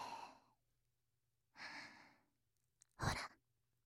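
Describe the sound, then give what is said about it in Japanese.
Soft, sighing breaths very close to the microphone: three airy exhales separated by silence, the last one fuller, with a small click just before it. Quiet and intimate. “私の息遣いが聞こえてきて、本当に近くで話しかけられてるみたいですよね。”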